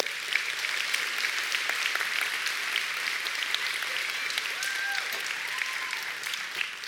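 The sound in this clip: Audience applause welcoming a guest to the stage: steady, dense clapping that holds at an even level for about seven seconds without a break.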